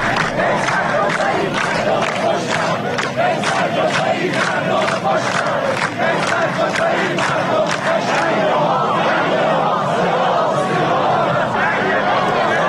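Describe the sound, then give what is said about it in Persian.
A crowd chants protest slogans at the funeral of actor Naser Malek Motiei, with loud, sustained massed voices and steady rhythmic clapping or beats throughout. “همون مردمی که توی مراسم تشییع ناصر ملک مطیعی صدای اعتراضشون رو اینجوری به گوش همه رسوندن.”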